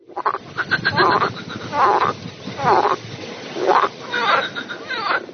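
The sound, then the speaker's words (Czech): Frogs croaking by a pond in the evening: a series of loud, rasping, pulsed croaks repeating in an uneven rhythm, with no voices. “To je žabí kvákání.”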